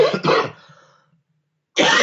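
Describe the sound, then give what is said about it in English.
A person coughs twice in quick, harsh bursts. Silence follows, then another rough cough starts abruptly at the end. “If I need to cough, what I'll try to do is just kind of go like this.”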